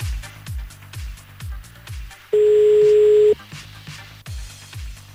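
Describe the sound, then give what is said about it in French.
Telephone redialing and ringing out on a call to Rouvreux: a run of regular clicks, then one steady ringing tone of about a second, followed by more clicking. “Bon, hey. On rappelle à Rouvreux. Allez hop, c'est parti.”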